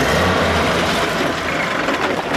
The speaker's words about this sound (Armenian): Խորհրդային արտադրության ու իրենց դարն ապրած այս ավտոբուսները դեռ կշարունակեն ուղևորներ փոխադրել։